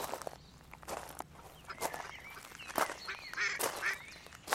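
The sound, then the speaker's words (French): Ducks quack in a series of nasal, honking calls, some overlapping, at moderate loudness over a steady background hum with light rustling. “Ce sont les canards qui cancanent.”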